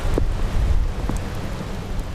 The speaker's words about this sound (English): it's a raining sideways wind howling day in Portage